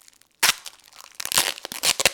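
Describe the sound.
Crinkly plastic packaging being opened by hand. One sharp tearing rip starts it, then a run of quick crinkles follows, and several louder crunching bursts come near the end.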